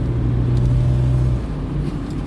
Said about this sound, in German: Deshalb muss ich euch schon wieder mit Nebengeräuschen nerven, weil ich bei offenem Fenster fahre.